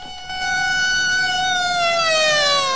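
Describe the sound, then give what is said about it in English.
Police car sirens wail as the cars race up along a road, a loud continuous siren whose pitch drifts slowly downward, with no voices. “Police cars race up, screech to a halt, and officers pile out.”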